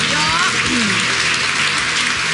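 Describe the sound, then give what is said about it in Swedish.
A big round of applause rises for the evening's guest of honour on a Swedish entertainment show, a dense, continuous wash of clapping with a voice talking over the first part. “En jättestor applåd för Pernilla Wahlgren!”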